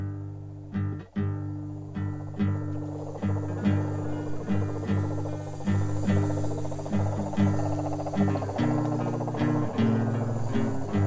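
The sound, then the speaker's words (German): Toads call at night by a river in Colombia, their low, buzzing trills repeating in a steady pulsing rhythm. Many calls run continuously throughout, with a faint insect-like chirring above them. “In der Nacht halten mich die Gesänge der Kröten unten am Fluss noch lange wach.”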